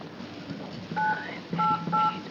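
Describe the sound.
Three short telephone keypad tones sound as a number is dialed, each a clear, steady electronic beep, spaced a fraction of a second apart over faint background hiss.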